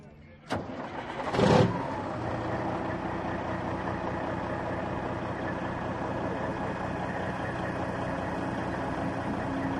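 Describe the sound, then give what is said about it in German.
An American vintage Kenworth show truck with a 500 hp, 12.7 litre engine starts up at a truck event. A sharp click and a brief roaring surge give way to a steady, deep, rumbling idle that holds to the end. “Was haben wir denn jetzt hier hinter uns stehen? Das ist ein Kenworth aus den USA, hat 500 PS, 12,7 Liter und Oldtimer,”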